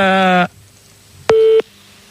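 Ringing tone of an outgoing telephone call: two steady electronic tones separated by a silent gap, the first longer and buzzier, the second shorter and purer.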